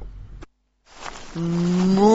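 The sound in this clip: A cow gives a single loud, drawn-out moo. The low, steady bellow rises slightly toward its end and follows a brief rustle and a pause.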